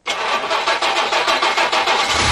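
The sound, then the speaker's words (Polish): A Żuk delivery van, the Lublin-built light commercial vehicle, has its engine started: the starter cranks in a quick, steady rhythm, and the engine catches right at the end. “59 lat temu w Lublinie rozpoczęto seryjną produkcję samochodu dostawczego Żuk.”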